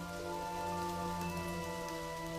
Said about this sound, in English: At night, rain pours.